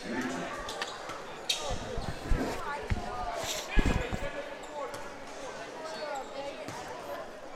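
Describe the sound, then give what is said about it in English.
A basketball is dribbled at the free throw line during a high school game. A few sharp, hollow bounces ring out at uneven intervals over a steady murmur of crowd chatter. “The big man dribbles the ball at the free throw line. Spins it in both hands.”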